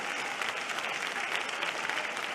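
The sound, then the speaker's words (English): Dense, steady applause from an audience clapping their hands during a church sermon and prayer, a continuous even patter of many hands held at a moderate level throughout. “Clap your hands.”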